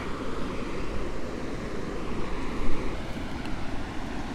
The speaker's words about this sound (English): I've reached St Michael's Mount, the tide's coming in, so there's no chance of crossing over today.